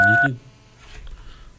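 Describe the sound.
A telephone line tone sounds as a caller hangs up: a single short electronic beep, then a cut to near silence with a faint low hum.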